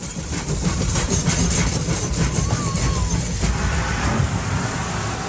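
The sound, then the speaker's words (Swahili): A train passes through a neighbourhood in Kenya, a steady, loud rumble and rattle of rail cars that fills the whole stretch without letting up. “Gari moshi likikatiza mtaani nchini Kenya.”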